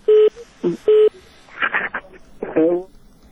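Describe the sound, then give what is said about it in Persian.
Telephone line tones sound after a call to a radio phone-in is cut off: three short, steady electronic beeps in quick succession, followed by brief voice-like sounds. “فکر کنم تلفنی تلفن قطع شد.”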